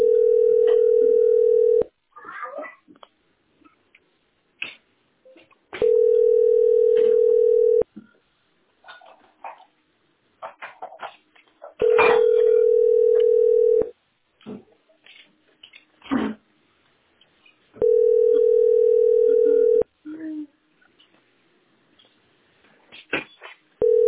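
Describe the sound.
Telephone ringing tone while a call is placed: four long, steady mid-pitched tones repeat at even intervals, with faint scattered noises and a little voice activity in the pauses between them.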